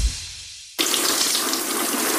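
Water being poured in a bathroom bursts in abruptly after a faint low hum, then runs as a loud, steady, hissing gush to the end, with no voices.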